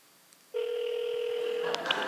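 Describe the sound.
A telephone call ringing on the line: after a short quiet stretch, one long steady tone holds for over a second, then ends in a click followed by a brief higher beep.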